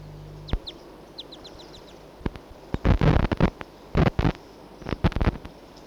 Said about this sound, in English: Two wild birds together.